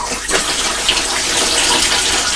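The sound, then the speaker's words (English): Water pours from a watering can in a steady, loud, unbroken stream with a bright splashing hiss and no talking. “Is that the watering can?”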